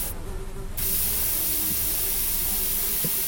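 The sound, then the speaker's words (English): Insecticide spraying at flies: after a short quieter lead-in, a steady hiss starts abruptly and runs unbroken to the end. “I sprayed every little nook and cranny, every pipe.”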